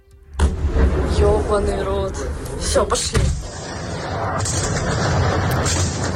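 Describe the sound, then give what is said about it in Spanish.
Bombs explode over Kyiv before dawn: a sudden heavy blast sets off a loud, sustained rumbling roar, with another sharp boom partway through before the rumble carries on to the end. “Así caían las bombas esta madrugada sobre Kiev.”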